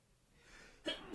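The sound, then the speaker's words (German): A sneeze from someone allergic to cats: a faint drawn-in breath builds, then a sharp burst breaks out, followed by a second rising burst at the very end. “Ungewöhnlich, dass ich jetzt so niesen.”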